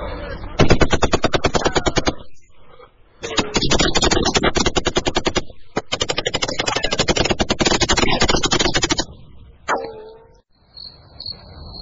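Sustained automatic gunfire as police and smugglers exchange fire, heard as three long loud bursts of rapid, dense shots separated by brief pauses, followed by a quieter stretch.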